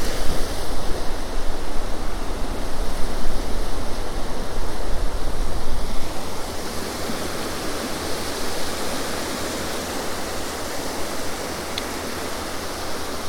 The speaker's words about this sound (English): Fortunately, there's a cold northeasterly, I guess, wind blowing.